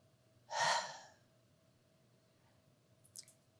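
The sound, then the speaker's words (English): A single deep breath taken during a guided breathing pause at a Sunday church service: one loud, airy gasp-like breath that swells quickly and fades within about half a second. Faint clicks follow, then quiet. “Take a deep breath. Hold it for a couple seconds and breathe out. Let's do it once more. Breathe in. Breathe out.”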